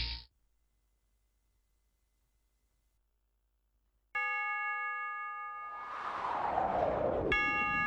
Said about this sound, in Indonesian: Setiap kali engkau mendengar bunyi jam yang menunjukkan pukul 3 sore